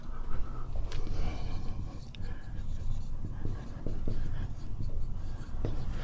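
A pen writing makes soft, scratchy strokes, many short irregular scrapes running continuously at a low level.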